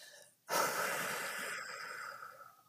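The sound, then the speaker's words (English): A long, breathy exhale during a breathwork exercise, blown out through the mouth as if through a straw; after a short quiet moment it starts abruptly, loud and airy, and fades gradually until all the breath is gone. “So let's let all of our breath out.”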